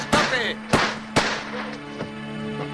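Gunshots ring out during a zombie clean-up outdoors: three sharp, loud cracks in quick succession, then a couple of fainter shots, over a steady low tone.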